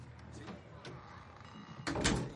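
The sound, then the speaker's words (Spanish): A door is shut by a nervous woman entering a hallway: a few faint knocks and clicks lead to one louder thump near the end. “En un recibidor, ella entra nerviosa cierra la puerta.”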